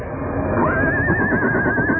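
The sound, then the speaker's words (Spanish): A horse neighs, its high whinny wavering up and down for over a second above a steady background hiss. “juntos avanzaron hacia donde el caballo esperaba.”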